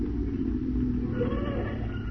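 A taxi cab arrives on a street, its engine giving a steady low rumble throughout.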